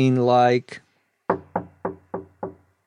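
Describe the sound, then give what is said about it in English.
Knocking on a wooden door: five sharp, evenly spaced raps, each with a short woody decay. A brief voice comes just before them. “is the noise that's made when you hit your hand against some object, usually a piece of wood. So knocking on a door would sound”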